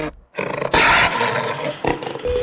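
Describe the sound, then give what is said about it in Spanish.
Jaguar roaring in a few loud, rough bursts with a brief silent gap near the start, the longest roar rumbling for about a second before shorter growling roars follow. “El jaguar, el felino más grande de América”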